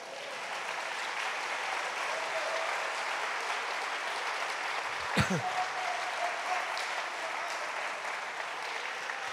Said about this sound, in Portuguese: Se você crê, aplauda ao Senhor essa noite.